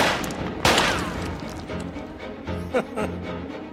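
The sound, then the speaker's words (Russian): Gunshots in a film scene: a sharp, loud crack, then a second, shorter report a few seconds later, both over a dense, steady background. “Вновь стреляет.”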